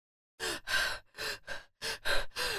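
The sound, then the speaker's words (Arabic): A frightened bull panting hard, voiced by a person as seven quick, breathy gasps in an uneven rhythm with short gaps, rough and noisy, heard alone. “سمعت الثور يقول وهو يلهث”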